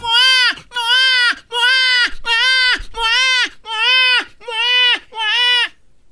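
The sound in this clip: A human voice imitates a crying baby, like an infant whose nose has just been cleared with a suction bulb, in eight loud, bleating wails of even length separated by short pauses.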